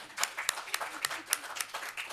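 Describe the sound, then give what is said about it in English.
An audience at a policy panel discussion applauds to welcome a speaker: light, fairly quiet clapping with many distinct hand strikes in an uneven patter through the short stretch. “To Nancy's left, let's hear it for Nancy, please.”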